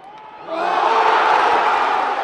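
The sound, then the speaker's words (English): A baseball crowd at San Francisco's AT&T Park roars as Barry Bonds breaks Henry Aaron's all-time home run record: quieter crowd murmur gives way at about half a second to a loud, sustained roar of cheering and shouts. “Last August, Barry Bonds rocked San Francisco's AT&T Park when he broke Henry Aaron's all-time record of 755 career home runs.”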